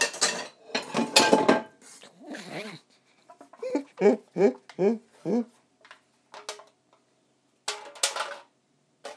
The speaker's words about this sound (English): I have a silver foil pie dish here. And I have a plate in my hand, but I'm not totally sure what I'm doing with the plate in my hand.